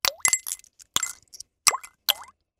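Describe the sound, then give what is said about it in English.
Several copper pennies plop one after another into a bowl of vinegar and salt, each a sharp wet plunk with a brief rising, bubbly ring, spaced irregularly with quiet gaps between. “So, pour the vinegar into the bowl and add the salt. Stir it. Put about 5 pennies into the bowl, like this,”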